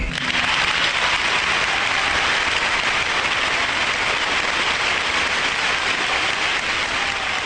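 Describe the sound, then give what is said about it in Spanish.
Studio applause for an interviewee, a steady, even hiss of many hands clapping that holds at one level throughout, with no talk. “Fue tan hermoso lo que dijiste que vamos a inaugurar una nueva sección del programa que es aplaudir al entrevistado.”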